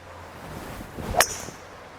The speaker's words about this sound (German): Dein Holz fliegt wesentlich höher und noch besser. Also ich sag jetzt mal, ich hatte dir, glaube ich, gesagt, Ziel auf diesen Stamm, der ging jetzt genau dahin.